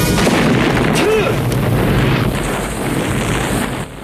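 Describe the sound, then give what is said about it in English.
A barrel of napalm hits the ground beside waterfall rocks and ignites in a vast explosion. It is a loud, sustained, rumbling roar with a heavy low end that holds for about four seconds and eases slightly near the end. “He spots Rambo below him and drops a barrel of napalm. Rambo pumps his arms as he runs for the river. The barrel plummets towards the ground, hits it, and ignites.”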